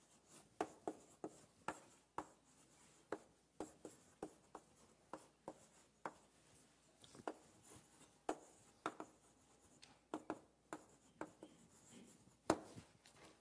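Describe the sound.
An inverter circuit diagram is drawn by hand during a CMOS energy lecture, producing many short, scratchy strokes in an uneven rhythm, faint and with no talk.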